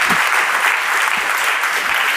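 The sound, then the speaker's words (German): An event audience applauds in a dense, steady patter of many hands. It keeps an even loudness for about two seconds without a break, with only a trace of talk beneath it. “Ein bisschen Applaus.”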